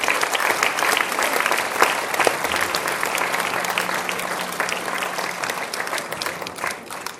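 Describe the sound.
Audience applause for two speakers at a cystic fibrosis association event: dense, even clapping that carries on steadily for about seven seconds, with a faint low hum beneath.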